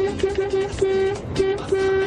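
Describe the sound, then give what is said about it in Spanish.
A vehicle horn honks repeatedly in a rhythmic pattern. A run of short toots is followed by a few longer blasts, all at the same steady, bright pitch, loud over a constant rumbling background. “Acá va mi bocina.”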